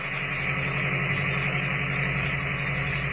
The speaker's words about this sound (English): the stillness of the night is broken only by the steady chugging of the ancient motor as it struggles laboriously but steadily up the mountain.